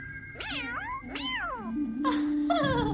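A cat meows repeatedly. It lets out a string of loud, drawn-out calls that swoop up and down in pitch, each following the last with barely a pause.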